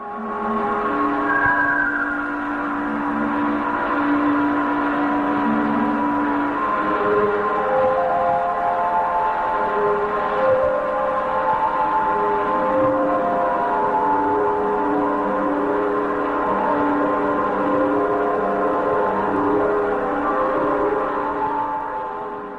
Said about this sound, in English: Listen to this airy, enchanting tune